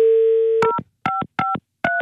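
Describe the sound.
A telephone number is dialed: a steady dial tone sounds first, then cuts to a few short, crisp keypad beeps in quick succession, each a clear two-tone chirp separated by brief silences.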